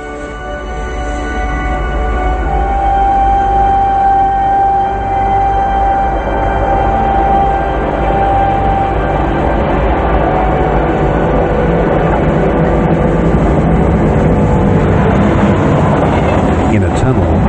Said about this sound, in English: Cables hang over the tracks, and lights from a subway train move slowly toward us.